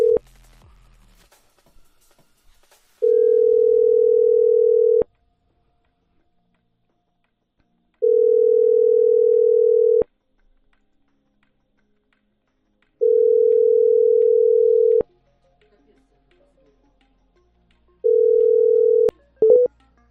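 Ringback tone of an unanswered telephone call: four long, steady, mid-pitched tones of about two seconds each, separated by silent gaps of about three seconds. The last tone is cut short, and no one answers.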